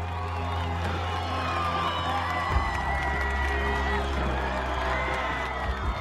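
A crowd in a film scene cheers and whoops for a hero, with scattered claps and shouts over a steady low hum, the roar holding fairly level throughout.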